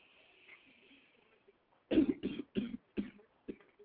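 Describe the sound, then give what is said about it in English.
A person coughing hard, with a quick run of about five harsh, forceful coughs after a quiet start, the later ones growing shorter. “That's one that coughed up a lung”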